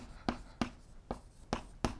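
Faint, sharp strokes of writing on a board during a physics lecture, five distinct marks at a quick, uneven rhythm with quiet between them.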